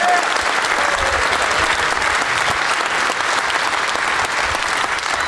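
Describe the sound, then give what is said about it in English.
Studio audience applause, with many hands clapping in a dense, unbroken wash that stays loud and even from start to finish. “let's have another round of applause for Tyler Bowlin taking it down.”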